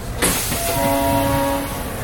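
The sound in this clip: A train pulls into its end-of-line station with a continuous heavy rolling rumble, while a steady tonal horn-like note sounds through the middle of the passage.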